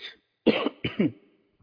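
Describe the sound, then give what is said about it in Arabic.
Coughing from someone with a mild cold: a short cough, then two stronger, rough coughs close together, and a faint final catch after a pause. “معلش اعذروني عندي برد بسيط كده، ف اعذروني في الكحة النهاردة يعني”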